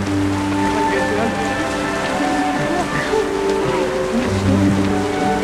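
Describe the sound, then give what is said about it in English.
Rain falls steadily, making a dense, continuous hiss and patter that stays loud and even from start to finish. “What's going on? It's rain. It's okay, it's fine. Nothing to be scared of.”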